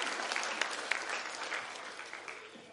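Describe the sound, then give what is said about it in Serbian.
Audience applause, a thick, even clatter from many hands, with a few sharper claps standing out early. It holds steady, then eases slightly toward the end. “kako vi zovete ovo? Aplauz.”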